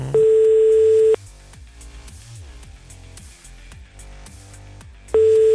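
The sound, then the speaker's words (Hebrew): A telephone line tone while a number is being dialed: a loud, steady tone holds for about a second, quieter rhythmic patterned sounds follow, then the same steady tone returns at the end. “אנחנו רוצים לחייג לדוקטור סרגי דומינוב, בבקשה בואו נחייג”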